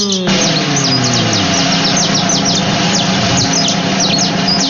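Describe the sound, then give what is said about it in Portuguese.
A saffron finch sings a rapid series of bright chirps and short high notes over a steady low background, loud and continuous, with no talking. “O passarinho de hoje é o famosíssimo. É o canarinho, o passarinho de hoje, o canarinho da terra.”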